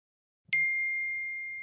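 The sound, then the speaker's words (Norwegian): Text message notification ding, a single bright chime struck once after a faint soft thump, then ringing on as a clear, steady high tone that slowly fades. “Tekstmelding fra Samira 2 MKA.”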